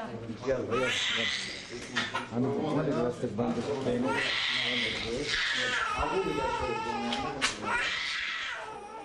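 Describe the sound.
An 8-month-old baby girl cries in a hospital bed, her arm in a splint and her body burned. The crying is loud and continuous, wailing in long strained bursts over a dense, busy background.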